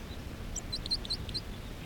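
A bird sings while perched on a bush about three feet off the ground, giving a handful of quick, high, thin chirps. The chirps are faint over a steady low background hiss.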